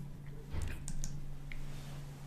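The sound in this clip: Soft keyboard clicks as a presenter advances to the next slide during a talk on email subject lines: a few faint, scattered taps over a low steady hum, with no speech.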